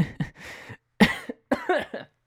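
A few short, rough coughing bursts from a person, separated by brief silences and heard alone.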